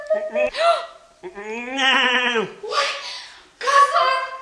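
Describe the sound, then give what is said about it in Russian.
A voice imitates an old grey goat bleating in four quavering, drawn-out cries with short pauses between them. The longest cry wavers and then slides down in pitch. “Старая седая коза, что бродила по деревне, волокла по снегу горшок с киселем.”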